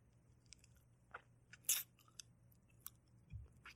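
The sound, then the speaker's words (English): Faint, sparse wet mouth sounds from licking a wound on someone's neck: a few soft smacks and clicks separated by near silence, with a low hum underneath. “Hang on, I need to lick the wound on your neck. It'll close up the holes.”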